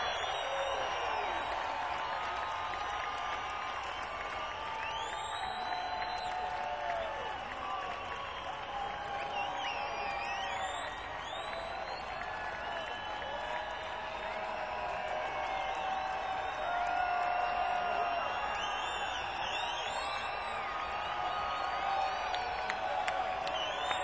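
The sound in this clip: A concert audience at Taste of Chicago claps and cheers, with scattered whoops and whistles over steady, fairly faint applause that runs throughout.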